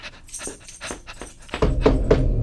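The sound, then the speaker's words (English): A new puppy whimpers and whines in a few short, high cries mixed with breathy panting, growing noticeably louder and fuller toward the end. “This is my new puppy.”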